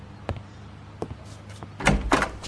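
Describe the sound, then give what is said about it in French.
A door being opened makes a few soft, separate clicks. A louder cluster of knocking and scraping noise follows at the end. “Je vais ouvrir la porte.”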